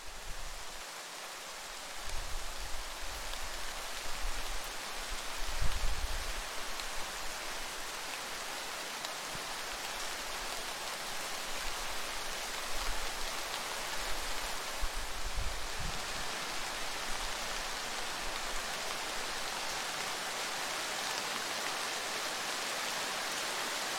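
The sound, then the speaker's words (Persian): Steady rain falling, heard from inside a home in the afternoon. A constant, soft, even hiss runs through the whole clip, with a few low rumbling swells near the start. “این صدایی که میشنوین صدای بارون.”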